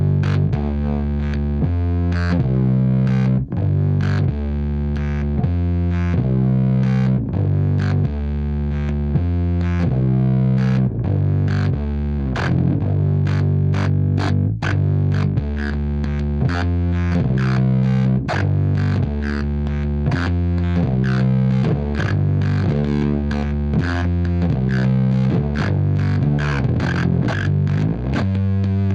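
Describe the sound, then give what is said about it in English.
Bass guitar played through a Speebtone Jerk-U-Later fuzz pedal with its momentary oscillator switch engaged, giving a thick, buzzy, distorted tone over a steady riff of many plucked notes with no talking. “I'm going to play it with the momentary foot switch to engage the oscillator. It just makes it sound really like buzzy.”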